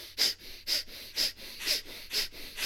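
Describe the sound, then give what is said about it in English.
Deep, pumping breaths driven by the diaphragm in a breathing exercise: a quick, steady rhythm of airy, hissing breaths, roughly two each second, with no talking. “you take a big breath and you pump your diaphragm, and you breathe with the pump.”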